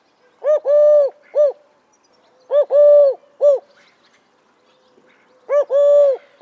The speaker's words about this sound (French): Alors, vous avez reconnu ce chant ? Bien sûr, il s'agissait de la tourterelle.